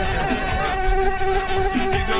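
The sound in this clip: A mosquito buzzes in a continuous, loud, high whine that wavers slightly in pitch and carries on alone for the whole clip.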